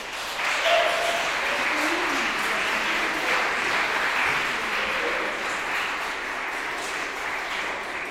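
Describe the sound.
An audience applauds to welcome a poet to the stage at a poetry event, with dense, sustained clapping at an even loudness throughout.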